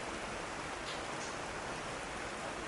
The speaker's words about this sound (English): We are accompanied by the soft sound of the rain,